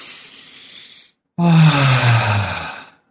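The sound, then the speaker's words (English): A deep breath taken to clear the mind: a soft, airy inhale, a brief pause, then a longer, louder, slightly voiced exhaling sigh that fades out. “let's take one breath to clear our minds.”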